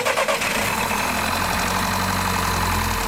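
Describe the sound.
A car engine is jump-started with jump leads from a flat battery reading just under 10 volts: a short uneven burst of cranking at the start, then a loud, steady running rumble with no voices.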